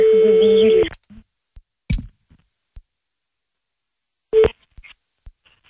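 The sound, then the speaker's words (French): Telephone tones while redialing to call someone back. A steady electronic tone lasts about a second, then sparse soft clicks follow with quiet gaps, and one more short beep sounds later. “Bah oui, je suis très déçu, on la rappelle, c'est parti.”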